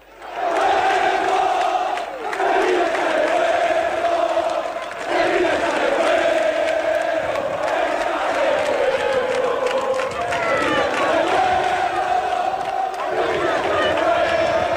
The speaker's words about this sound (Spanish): Parece ambiente de partido, pero es ambiente para recibir a los jugadores antes de un partido, el día antes